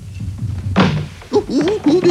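A heavy thud as someone slips and falls on a slippery staircase: one loud impact followed by short vocal exclamations.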